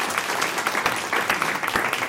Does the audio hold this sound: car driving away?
no